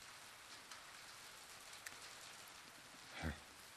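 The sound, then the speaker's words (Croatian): Heavy rain pouring down, a faint, even hiss of falling water that runs through the whole stretch, with one brief low thump near the end. “Danas kiša lije kao iz kabla.”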